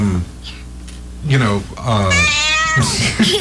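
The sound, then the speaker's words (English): Cat meows from a sound effect played with a hotkey: a few loud, tonal, wavering meows follow one another with people talking alongside. “I'm teaching her the hotkeys. Yeah. We just made a cat.”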